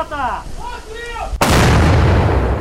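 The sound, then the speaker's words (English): Artillery fire from Ukrainian troops shelling Russian front lines: one sudden, loud boom cuts in after a brief voice and leaves a heavy, sustained rumbling roar to the end. “For the last 100 days, Ukrainian troops have been firing artillery at what U.S. officials say is an unsustainable rate as they try to break through Russian front lines.”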